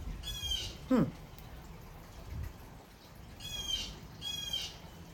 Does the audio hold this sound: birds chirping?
yes

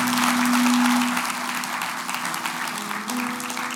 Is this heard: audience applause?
yes

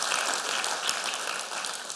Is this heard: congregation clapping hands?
yes

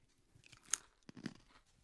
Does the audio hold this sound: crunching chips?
yes

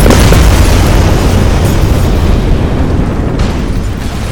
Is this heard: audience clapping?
no

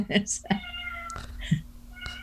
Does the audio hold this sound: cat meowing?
yes

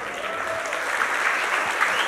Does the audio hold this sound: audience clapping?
yes

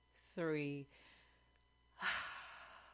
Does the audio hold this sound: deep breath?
yes

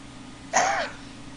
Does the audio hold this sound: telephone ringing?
no

